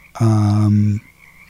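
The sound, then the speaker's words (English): A frog croaking: one loud, sustained low buzzy croak lasting under a second, steady in pitch and rich in harmonics, ending abruptly into quiet background. “I'm hearing mostly frogs.”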